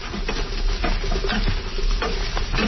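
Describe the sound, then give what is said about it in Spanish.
Beans are mashed and fried in a frying pan over a wood fire, giving a steady, continuous sizzle broken by scraping and stirring strokes. “Ya estando aquí en el sartén frijol. Ajá. La machacamos tantita. Ah, le da una machacadita ahí.”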